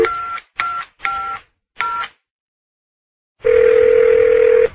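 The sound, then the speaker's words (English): A telephone number being dialed: four short electronic tone beeps, a silent pause, then one long, steady tone. “I better call Don.”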